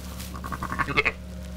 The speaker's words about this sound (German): hält man das Lamm ran und dann hört man das, wenn man leise ist. Gut, im Stall ist das jetzt nicht so leise, aber dann hört man das Schmatzen auch.